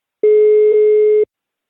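Ringback tone on an outgoing phone call: one steady, mid-pitched electronic tone lasting about a second, heard alone with no talk.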